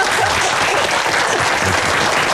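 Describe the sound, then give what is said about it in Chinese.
Loud, dense applause welcoming a director as he arrives, a continuous crackle of many hands clapping at a steady level from start to finish. “廖主任来了，哎，来来来，我们给廖主任鼓掌。”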